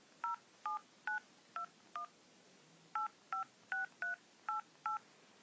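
Telephone keypad dialing as a call is placed: eleven faint, evenly spaced touch-tone beeps, five in a quick run, then a short pause and six more, with no talking.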